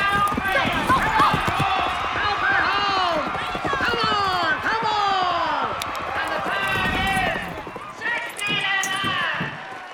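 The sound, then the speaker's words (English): A cowgirl's horse gallops into a sunny rodeo arena and slaloms around barrels, its rapid hoofbeats drumming steadily beneath a voice that talks over most of the sound. “In brilliant sunshine, a cowgirl gallops into an arena. She's clear on two. She slaloms around barrels.”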